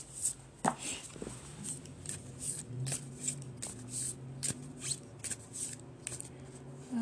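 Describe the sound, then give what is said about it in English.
A deck of cards is shuffled by hand, making a quiet, irregular run of soft riffling and sliding clicks that continues throughout. “I really feel a push to pull more cards.”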